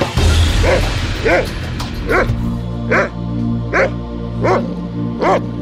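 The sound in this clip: A dog barking in a steady series of seven high, yelping barks at even intervals, each with a slightly whining tone, over a low background hum.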